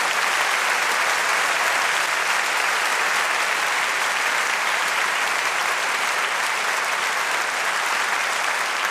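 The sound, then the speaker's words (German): An audience claps in dense, even applause that holds at a steady level for the full length without a clear beat. “Ich brauche euer Klatschen, okay? Okay. Langsamer. So macht man das.”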